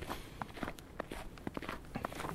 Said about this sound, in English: Let me see. I've been walking almost nothing. I thought I'd been walking for hours, which is not the case.